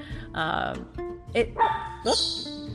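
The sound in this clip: A small dog barks as someone comes in the door: a few sharp, high yips, loud and uneven, with pauses between them.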